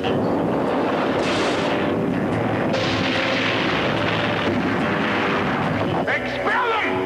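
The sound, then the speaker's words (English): Moonraker spacecraft lifting off in a film trailer, a loud, continuous roaring rumble with heavy bursts of blast and thrust that keeps a steady, powerful intensity. “Moonraker 1, liftoff.”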